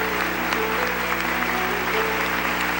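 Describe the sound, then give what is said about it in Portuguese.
An audience at a church service applauds: dense, even clapping that stays steady and loud throughout, without pause. “Vamos aplaudir a palavra de Deus. Aplauda com alegria. Aplauda para valer.”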